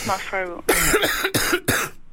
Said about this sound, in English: Can you just do a bit of a cough for us now? Right, I'm going to do a bit of my one now.